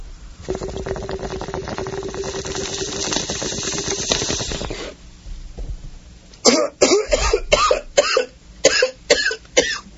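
Harsh coughing after a bong hit, a quick run of hacking bursts in the second half, preceded by several seconds of steady hissing that stops before the coughs begin.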